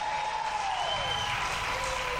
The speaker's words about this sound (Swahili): Hebu piga makofi na vigeregere kwa Yesu.